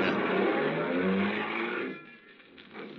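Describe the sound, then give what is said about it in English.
A car engine roaring loudly and steadily as the car drives off, then dropping away sharply near the end to a lower, softer rumble. “Ed Porter settled the hat lower on his ears and gripped the wheel harder, and we took off for Angelo's on Stoker Street.”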